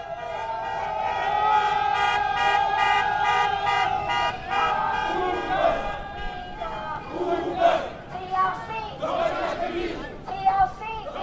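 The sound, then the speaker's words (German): A crowd of striking Uber drivers rallies outside the Taxi and Limousine Commission building in downtown Manhattan, with steady shouting and chanting, a few car horn toots, and a voice speaking over the din. “Eine Gruppe streikender Uber-Fahrer hat sich hier vor dem Gebäude der Taxi- und Limousinenkommission in Downtown Manhattan versammelt.”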